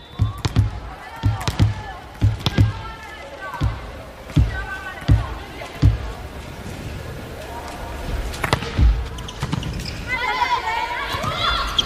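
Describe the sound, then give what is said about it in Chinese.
Volleyball impacts during a women's match against Kazakhstan as a substitute serves: many sharp, punchy thumps in an uneven rhythm over a steady crowd murmur that swells toward the end. “杨书明啊，替补发球。”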